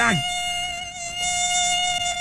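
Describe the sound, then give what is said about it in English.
Mosquito whining in a thin, high, sustained buzz with a steady pitch, holding continuously through the whole clip and quite loud. “Got it. Okay. All right. Mosquito gone. Taken care of.”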